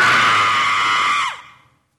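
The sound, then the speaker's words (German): A person screams in a single loud, high, sustained cry that holds steady, then drops in pitch and fades out at the end. “Muss ich jetzt schreien? Ich bitte darum.”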